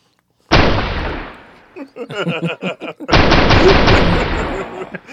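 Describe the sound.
Machine gun fire in a video game roars in two long, dense bursts, loud and sustained, with a short stretch of voice between them.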